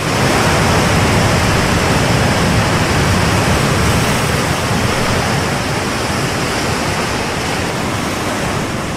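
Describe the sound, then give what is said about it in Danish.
Ocean waves from the sea around Denmark make a loud, unbroken, hiss-like roar that stays steady throughout with no distinct breaks, close to the sound of television static. “Det her, det er lyden af bølger. Det kunne også umiddelbart lyde, som om det er lyden af et lidt skrættende fjernsyn. Men det er lyden af vand.”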